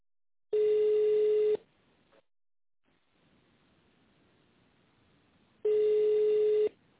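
Telephone ringback tones while a caller waits for an operator after dialing an extension: two long, steady, buzzing tones about a second each, separated by a few seconds of faint line hiss.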